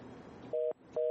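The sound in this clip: Telephone tone after a dropped call, two steady two-tone beeps separated by a short gap, rising out of faint line noise, the second beep cut off at the end.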